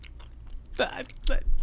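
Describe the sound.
Chewing of soft, sticky gumdrop candies: quiet, wet mouth sounds in a few short bursts, with faint smacking between them.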